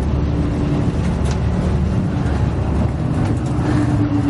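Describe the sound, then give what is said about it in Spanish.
A bus drives along a winding road with a continuous low rumble of engine and road noise. The sound stays steady, with no distinct separate events. “El autobús sigue su camino. Eva y Tomás se miran algo preocupados. El vehículo llega a una nueva curva y vuelve a hacer maniobras.”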